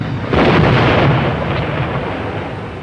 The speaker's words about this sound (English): The explosions illuminate the explorers and the jungle behind them.